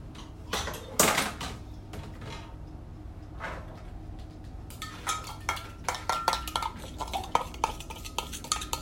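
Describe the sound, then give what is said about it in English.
Powder is stirred into half a pint of milk in a bowl: a few faint scattered clinks early on, then a quiet run of quick utensil taps against the bowl. “So I'm just mixing it all up now and making sure that it goes into that consistency.”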